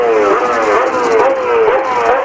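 A winning Toyota race car engine is revved in neutral, its loud buzzing note climbing and dropping back in several repeated rev cycles.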